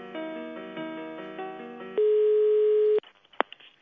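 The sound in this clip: Telephone ringback tone on an office line while a call is being transferred: steady layered tones give way to one long, even, mid-pitched beep of about a second, followed by a few sharp clicks on the line.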